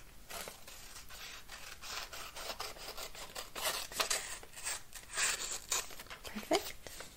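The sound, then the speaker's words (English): Scissors trim the short excess end off an accordion-folded paper strip for a Valentine's box craft, giving soft, quiet, crisp snipping with papery rubbing and rustling throughout. “And this excess at the end that isn't quite long enough to join the rest as a fold, I'm just going to trim that off.”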